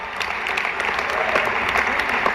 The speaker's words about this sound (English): Can we have a round of applause for Chuck Schumer?